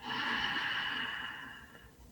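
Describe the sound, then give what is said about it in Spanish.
A deep breath drawn in during a guided breathing exercise: one long, steady, airy inhalation lasting about two seconds, heard alone and gently fading toward the end. “Aprovechemos esta inhalación.”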